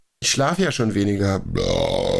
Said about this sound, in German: Das siehst du exakt auf der Spur, wo der Rülpser ist.